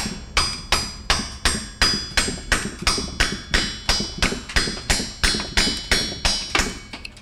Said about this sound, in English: here's the sound of carving alabaster.